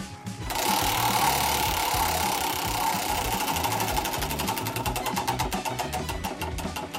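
A prize wheel with labelled notes spins on a radio show, giving a fast, dense mechanical rattle that later separates into a long run of distinct, evenly spaced clicking ticks.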